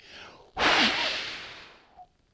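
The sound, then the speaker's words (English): Forceful exhale from a person breathing out onto listeners, a sudden loud rush of air that starts abruptly and fades over about a second and a half, then a brief soft sound. “Now I breathe on you the Holy Spirit to give you the power to go tell.”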